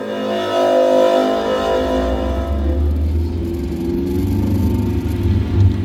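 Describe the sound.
A car drives around a green space, its engine giving a low, continuous whirring rumble throughout.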